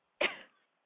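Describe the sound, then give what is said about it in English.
A single harsh cough from someone who has been smoking too much and can't catch their breath; one loud, abrupt burst that tails off quickly into silence. “So coughing at that. Look, you can't catch your breath. Smoking too much.”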